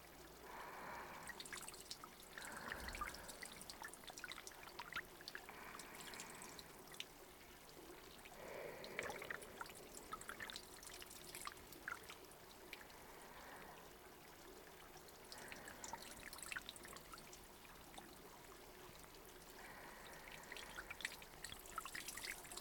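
Water poured over a person's hair to rinse it during a hair wash: a continuous splashing trickle with drips, steady and moderately loud for the whole stretch, with no talking.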